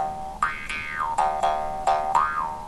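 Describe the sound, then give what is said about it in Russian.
A jaw harp played wrongly with a constricted throat gives several twangy, buzzing plucks whose bright overtone glides up and back down, each one starting sharply and ringing briefly before the next. “Вот сейчас я покажу вам на варгане, как это звучит примерно. То есть, если я, допустим, играю неправильно, сжатым горлом, то это звучит так.”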